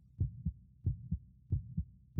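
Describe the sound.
A woman's excited, pounding heartbeat thumps quietly in an even lub-dub rhythm, with three low, muffled double beats followed by the first thud of a fourth.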